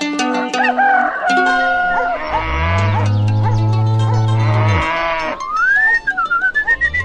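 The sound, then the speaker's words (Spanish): Cows moo on a farm, one long, deep, sustained moo dominating the middle. Higher farm-animal calls surround it, with crowing and bleating before and after. “Buena leche da ponerle nombre a las vacas.”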